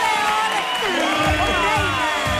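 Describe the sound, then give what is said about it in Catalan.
A studio audience cheers, whoops and claps for a guest introduced on a Catalan-language show. The dense, loud crowd noise carries high excited shouts throughout. “Un aplaudiment per l'Alejandra Castelló.”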